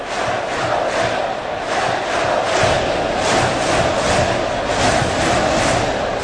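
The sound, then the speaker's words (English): Football fans roar at Acrisure Stadium during a college game between Pitt and Syracuse as the visitors face third and 18; the crowd noise is a loud, continuous wash of cheering and yelling. “Fans getting loud here at Acrisure Stadium.”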